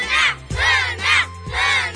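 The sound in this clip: Supporters of a quiz team contestant chant and cheer, shouting four loud, high vocal bursts in an even, repeating rhythm.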